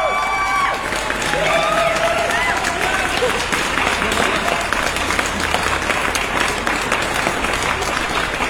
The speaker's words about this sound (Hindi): तो चलिए जोरदार तालियां आपके लिए।